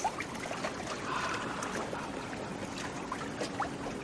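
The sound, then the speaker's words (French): Small waves lapping at the sea surface, a soft, steady wash of gentle splashing and trickling water with occasional light slaps, continuous and fairly quiet. “Juste un petit clapotis au ras des flots. Clic, clic, clic. Tu te laisses bercer par la mer.”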